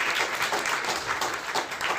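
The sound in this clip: Audience applause welcoming an author at a book event: a dense, continuous patter of many hands clapping, steady and fairly loud for about two seconds, with no pause.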